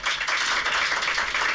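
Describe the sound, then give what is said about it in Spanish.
Journalists in the press room at the Westfalen clap after a football coach's speech, giving a brief, moderately quiet burst of applause with a few uneven pulses. “Eran los aplausos de todos los compañeros de la prensa, y no solo de los que fuimos desde aquí, sino también de los ingleses.”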